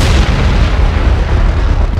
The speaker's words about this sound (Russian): как раздался оглушительный взрыв